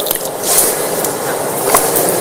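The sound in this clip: Hands being washed and rubbed with only a little water during ablution, the left hand scrubbed over by the other, giving a steady wet rubbing and scraping noise with no talk.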